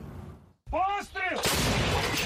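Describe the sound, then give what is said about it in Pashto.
Artillery guns fired by Ukrainian forces at Russian occupying troops: a brief voice comes first, then a loud blast of broad noise that stays strong to the end. “اوکرایني ځواکونه د روسي پر اشغالګرو قواو د ورځې په زورګونو د توپونو ډزې کوي”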